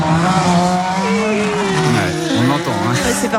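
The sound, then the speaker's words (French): Race cars accelerating at a 24-hour endurance race make a loud, continuous roar. Several engine whines overlap as they rise and fall in pitch, with a brief high squeal near the end. “C'est le bruit des voitures et ressentir les vibrations. C'est quand ils accélèrent.”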